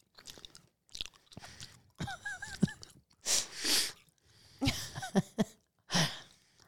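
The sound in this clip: Crunchy, wet chewing of jalapeño-flavoured candy: several irregular bites and loud crunches with smacking mouth sounds between them, heard alone without talk.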